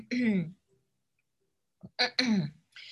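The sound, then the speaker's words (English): A voice imitating an elderly woman clearing her throat: a short, rough, voiced rasp, then a silent pause, then a few quick, throaty bursts close together. “Then Mary would stand on her old, old legs, clear her old,”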